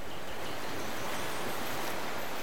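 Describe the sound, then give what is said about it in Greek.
Sea waves on a beach give a steady, broad hiss of surf with no distinct breakers. The wash holds an even level throughout, and no voices are heard. “άλλο ήχο της θάλασσας τώρα, της παραλίας”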